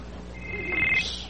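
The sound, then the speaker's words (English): A mobile phone rings during a sermon, a single faint, high electronic ring lasting under a second, rising slightly above a steady background hum. “And I'm ringing.”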